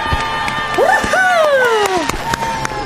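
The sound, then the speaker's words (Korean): A celebratory fanfare sound effect marks a singer's solo debut: bright sustained tones with swooping notes that rise and then slide downward, over a lively crowd-like background, lasting about three seconds. “빵빠레 먼저 올리겠습니다. 키노의 솔로 데뷔를 축하합니다!”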